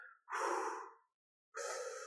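Breathing out and in through the nose: two soft, airy breath sounds, each close to a second long, separated by a short silent pause, with no talking.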